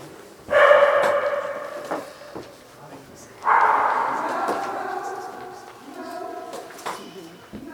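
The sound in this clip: A dog barks in two loud, drawn-out bursts a few seconds apart, each tapering off, with quieter scattered knocks and noise between them.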